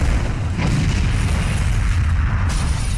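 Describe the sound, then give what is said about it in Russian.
Bomb explosion blowing a horse-drawn carriage apart on a street: a loud, sustained low roar and rumble fills the whole clip at a steady level, with no separate blasts standing out and no voices. “От взрыва карета распадается на две части. Улицу затягивает густым дымом.”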